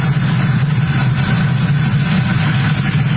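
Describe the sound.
Rocket first-stage engines roar during a launch of a crewed mission to the space station, as the stage throttles down before maximum dynamic pressure. A loud, steady, low rumble continues without a break.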